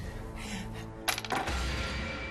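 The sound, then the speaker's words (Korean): Dice thrown in a board game give a short, bright clatter of a few quick, hard rattles over a low, steady background hum. “자, 그럼 다음 문제를 풀려면 계속해서 주사위를 던져 주세요.”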